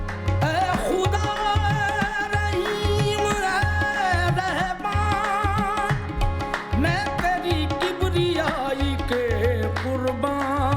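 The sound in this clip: Qawwali singing: a powerful, intense voice pours out ornate, wavering melodic lines over a steady rhythmic pulse of percussion and sustained accompaniment, loud and unbroken throughout.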